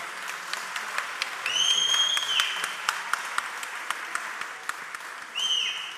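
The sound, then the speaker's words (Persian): Audience applause at a party in Brighton, thanking the performers and a singer: many sharp claps at a lively, steady loudness. Two shrill, sustained whistles cut through, one in the middle and one near the end. “دست محکم براشون بزنید”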